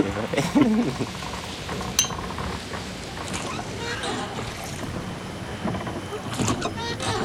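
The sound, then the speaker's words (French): A canoe moving away across a calm sea at night: a continuous wash of water splashing and lapping with a few louder surges, while people talk over it. “Le canot, là. Le canot, il s'en va.”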